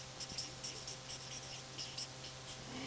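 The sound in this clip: A red marker pen that is running dry squeaks faintly across a surface in a series of short, scratchy strokes over a steady low hum. No one talks.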